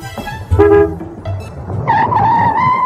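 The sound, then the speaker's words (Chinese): Car horn honks as a car pulls up in front of a general's villa in the early morning: a short, bright blast sounds over engine rumble, followed by a steady droning engine tone. “清晨，板垣一夫开车将廖飞领到了石兵将军的别墅前”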